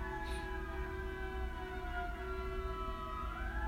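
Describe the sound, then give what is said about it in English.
A siren wails steadily in the background with a sustained tone that bends slightly upward near the end, over a continuous low rumble. “that's a siren in the background.”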